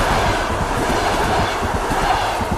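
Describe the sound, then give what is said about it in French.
A model railway train runs along its track within a large miniature railway network, giving a steady rumbling roll with quick, rhythmic clicking from the wheels, continuous throughout with no voices. “Alors ici, nous sommes au cœur d'un vaste réseau de chemins de fer miniatures.”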